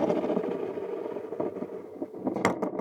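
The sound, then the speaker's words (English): A toy spinning top being spun gives a steady, rough mechanical whir that runs without a break, with a few sharper clicks near the end. “Oh, it's it's a top. I wasn't expecting that, I'll be honest. Would you please give it a spin?”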